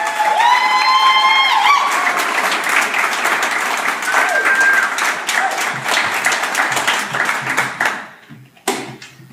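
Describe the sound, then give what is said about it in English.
An audience gives loud applause and cheering to send off a departing guest. A high whooping voice rises over the dense clapping early on, then the ovation carries on strongly before fading away near the end. “If you will give one more exciting, warm round of welcome for Virginia.”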